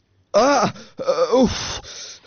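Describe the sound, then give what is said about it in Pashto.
Someone cries and moans in their sleep, two loud, drawn-out wavering wails with a short pause between, the second longer and trailing off into softer, breathy sobbing. “خوب کې دې ژړل؟”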